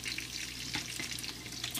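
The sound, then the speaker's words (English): Sliced sausage frying in a frying pan, a quiet, steady sizzling hiss scattered with small crackles and pops. “And then I cut those into little slices. And that's what's in the frying pan now.”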